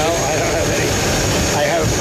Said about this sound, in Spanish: No se escucha bien por el sonido del avión